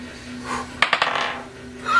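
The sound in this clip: A die rolled on a table lands with a few quick, sharp clicks close together, followed by a brief softer rattle as it settles, then quiet.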